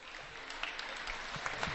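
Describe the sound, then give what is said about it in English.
A crowd applauds an injured player with a hurt knee as he is helped to the bench. The clapping is faint and steady, with a few slightly sharper claps standing out. “Crowd graciously gives him a hand as they get him up and get him to the bench.”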